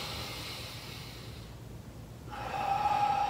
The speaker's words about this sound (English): And now if I take a deep breath in